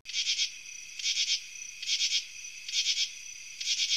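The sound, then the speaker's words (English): A katydid calls in five evenly spaced bursts of high, rasping, buzzy trill. A faint thin continuous tone runs between the bursts, and no other sounds are heard. “Now, what you just heard was a sound clip of a katydid.”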